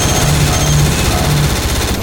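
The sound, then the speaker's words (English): Automatic gunfire aimed over people's heads, a loud, dense rattling clatter that runs without a break for the whole stretch. “I just hope they're intending to take us alive, because firing over their heads isn't doing us much good.”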